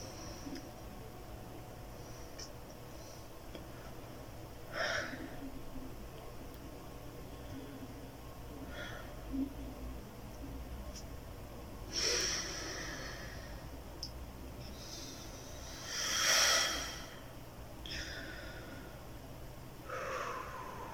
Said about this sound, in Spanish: Me está costando respirar.